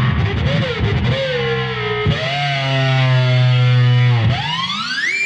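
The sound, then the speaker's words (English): An electric guitar plays through whammy and distortion pedals. Loud, buzzing sustained notes bend and slide in pitch, then sweep sharply upward at the end. The guitar is heard alone. “so I can get guitar sounds quite simple with just simple distortion on it.”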